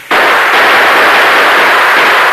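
Gunshots fired through windows during a shootout at a shack, heard as one loud, continuous blast of noise with no separate shots, cutting in abruptly and holding steady to the end.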